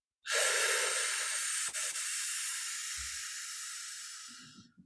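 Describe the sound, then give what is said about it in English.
A slow labour-breathing inhale drawn in through tight lips: one long, breathy hiss begins abruptly and holds steady for about four seconds, then fades. A faint low thump and a soft rustle follow. “you're going to aim by releasing your belly for 5 seconds in through tight lips.”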